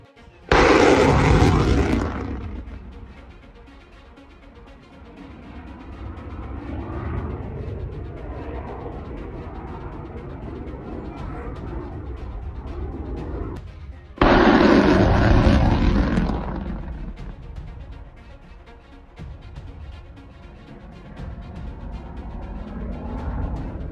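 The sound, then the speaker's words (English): Air defence fire shooting down Russian cruise missiles over Odesa region at night: two loud booming bursts about fourteen seconds apart, each trailing into a long, lower rumble that persists between them. “Shooting down Russian cruise missiles over Odessa region during yet another massive Russian attack on Ukraine last night.”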